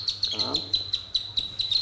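Avocet chicks three to six days old chirping on a green mat: a rapid, steady series of many high, thin peeps in a regular pulsing rhythm.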